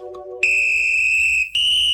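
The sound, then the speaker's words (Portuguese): A shrill whistle blown in two blasts, a long steady high tone and then a shorter one, right after a brief tonal chime. “O apito tocou e o Ricardo Paredes voltou.”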